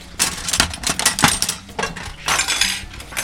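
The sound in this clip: Cutlery being picked up while bread bakes, a busy stretch of bright metallic rattling and clinking with many quick, overlapping knocks.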